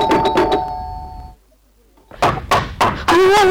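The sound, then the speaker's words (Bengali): Knocking on a door, three hard, dull thuds in quick, even succession, followed by a voice beginning to speak. “ওই আবার দরজায় ঠোকা মারছে। কি করবো দরজা খুলে দেবো”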